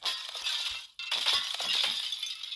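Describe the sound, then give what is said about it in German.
A neighbour's picture frame is smashed in a video game, giving bright crunching and clinking glass noise in two bursts split by a brief break, the second longer and busier. “Es ist ein Bild vom Nachbarn. Weg damit. Hey, was? Kaputt, kaputt, kaputt.”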